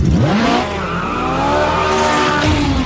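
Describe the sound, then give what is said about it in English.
A Ferrari sports car engine roars loudly and continuously, its revs rising and falling in a rich, shifting tone with a hint of tire squeal. “What a noise. The roar. That is surely the most famous sports car engine sound of them all. It is of the Ferrari”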